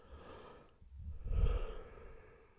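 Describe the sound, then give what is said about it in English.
A soft, breathy yawn that swells to a low, airy peak and then fades away. It is fairly quiet and heard alone, with no talking. “Did you yawn?”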